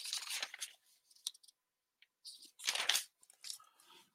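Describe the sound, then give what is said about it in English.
Paper folders being rummaged through give bursts of crinkly rustling and crunchy handling, irregular and scattered, with short quiet gaps between the louder flurries. “Maybe it was this one over here. I gotta organize all my folders. It's not this one.”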